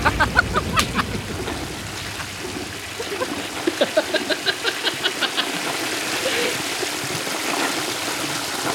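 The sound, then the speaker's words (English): Rushing water from 32 toilets flushing in near unison forms a continuous gush, with a regular run of pulsing surges through the middle. “you hear that? It's the sound of 32 toilets flushing in near unison.”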